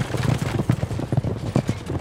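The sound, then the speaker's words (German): Horses gallop past in a chariot race, their hooves making rapid, dense, uneven thudding beats that run continuously and loudly throughout. “Zentimeter dicht rasen die Galopper an ihm vorbei.”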